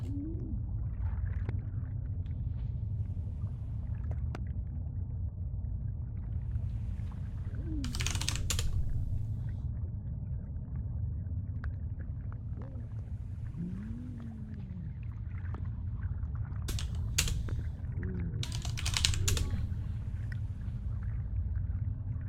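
Typing on a computer keyboard to enter a search, heard as scattered soft clicks with a few louder bursts of rapid keystrokes over a low steady hum.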